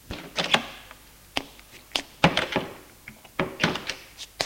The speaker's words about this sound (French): La nuit, elle va à la chambre de sa sœur. Elle frappe et entre.